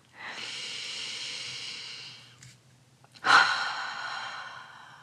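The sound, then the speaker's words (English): A deep breath taken slowly: a long, soft, airy inhale, a brief pause, then a louder exhale that starts abruptly and fades out. “Did you take that deep breath with me?”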